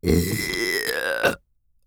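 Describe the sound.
A long, drawn-out burp right by the ear, a deep, rough rasp that holds steady for over a second, swells at the end, then cuts off into silence.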